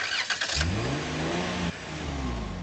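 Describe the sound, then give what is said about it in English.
Engine of a Dodge Grand Caravan minivan revving, its steady mid-pitched drone climbing in pitch, then briefly dipping before rising again, heard alone without talk. “Hi, I'd like to test drive this Dodge Grand Caravan.”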